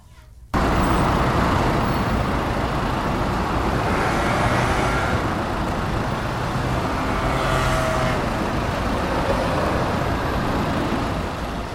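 Busy street traffic with passing buses in north Madrid near hospitals, recorded on the pavement: a steady, dense roar of engines and tyres with a couple of brief swells as heavier vehicles go by.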